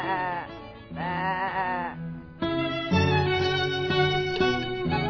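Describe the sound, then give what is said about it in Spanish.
Sheep bleating, a few nasal, quavering calls with a wavering pitch, loud and clear with no talk over them. “La oveja.”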